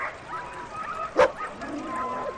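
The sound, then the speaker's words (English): A single short yelp from a sled dog in a yard in a Greenland town, briefly rising above a steady low background hum. “and sled dogs lounge in the yards”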